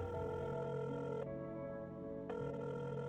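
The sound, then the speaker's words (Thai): A telephone rings as a call is placed again: a faint, continuous electronic ringing tone that shifts briefly in the middle and then resumes steadily. “รีบต่อสายหาน้องโบอีกครั้ง เพื่อจะบอกว่ามาถึงร้านแล้ว”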